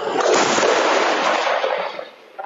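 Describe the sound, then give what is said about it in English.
Artillery fire from Israeli guns shelling Lebanese villages near the Israeli border, heard as a dense, continuous rumbling roar that stays loud for about two seconds, dips briefly, then swells again. “Israeli guns still firing as they have been all night.”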